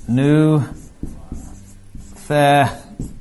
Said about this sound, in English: It's nuthetao, so let me write it in English.